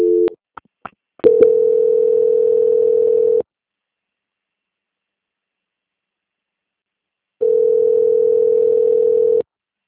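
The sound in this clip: Telephone line tones while a call is transferred to another department: a few short beeps, then a long steady tone, a silent gap, and a second identical steady tone, loud and clean.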